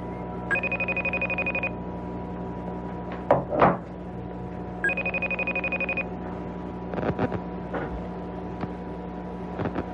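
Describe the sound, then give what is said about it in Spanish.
A telephone rings as a call is placed, giving two bursts of rapid, trilling electronic ringing. Between and after them come a few soft clunks and rustles of handling. “Ok, hacemos nuestra llamada en este momento”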